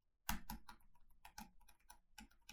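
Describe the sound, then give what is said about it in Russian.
A man types a message on a computer keyboard, a faint run of irregular key clicks with brief pauses, heard alone. “Мужчина набирает сообщение на клавиатуре.”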